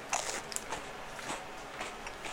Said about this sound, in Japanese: 今ねブランチュールっていうなんかブルボンのお菓子を発見したんでこれを食ってみるわ